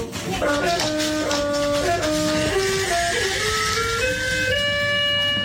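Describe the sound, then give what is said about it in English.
Electronic keyboard notes sound at random as a dog rubs its backside across the piano keys, with loud, sustained, overlapping tones that shift up and down in pitch without pause. “This is a dog rubbing its arse across the keyboard.”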